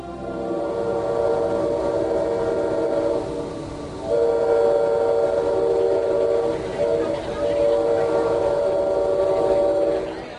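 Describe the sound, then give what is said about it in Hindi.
In a radio drama, a train bound for Pretoria in South Africa sounds long, sustained whistle tones over a steady rumbling engine, loud and unbroken apart from a brief gap. “ये train आपको सीधे Pretoria पहुंचा देगी। Mister Gandhi, ये रहा आपके पहले दर्जे का टिकट।”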